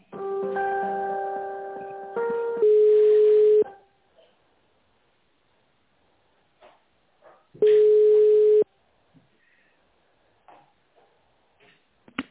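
Telephone line tones during a call transfer: a short run of stepped multi-tone beeps, then two long, steady ringback tones about five seconds apart, with faint clicks and ticks on the line between them.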